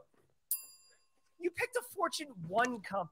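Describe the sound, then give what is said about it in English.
A single bright bell chime strikes and rings out, fading over about a second before people start talking. “I might have to pick a different chime by accident.”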